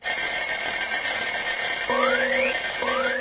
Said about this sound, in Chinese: 关上了闹钟